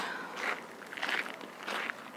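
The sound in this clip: Footsteps of someone walking through a botanical garden: a few soft, faint crunching steps over a quiet background.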